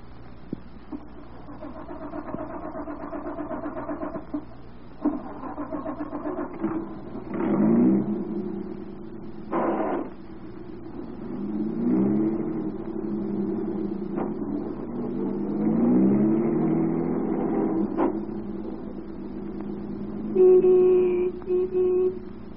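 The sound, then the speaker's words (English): A car engine pulls away and accelerates onto the highway, its droning note climbing several times as it picks up speed, with steady low engine rumble throughout. “Drove away from Willow Springs, got out onto the highway, and started toward town.”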